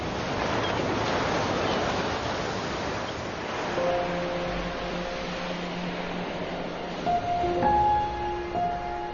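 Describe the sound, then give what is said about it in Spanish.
Stormy Baltic Sea waves churn under hurricane-force autumn winds, making a continuous broad rushing wash that surges and swells with no clear breaks. “El agua se agita con los vientos huracanados.”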